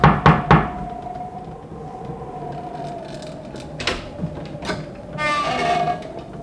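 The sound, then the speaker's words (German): Sharp knocking on a mill door bolted from the inside: a few quick raps at the start, followed by a steady droning hum and low rumbling, with some brief clattering noises later. “Die Tür war von innen verriegelt. Sie mussten also pochen.”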